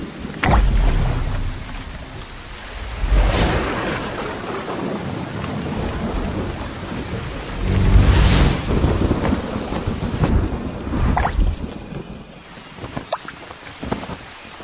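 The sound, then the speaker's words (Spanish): A violent tropical storm roars with gusting wind and heaving surf, a dense, rushing noise that swells in strong surges and eases back again. No voices are heard. “Formando nubes enormes. Se desata una violenta tormenta tropical.”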